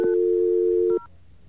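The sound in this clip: A telephone line tone sounds as one steady electronic hum for about a second, then cuts off abruptly, leaving near silence.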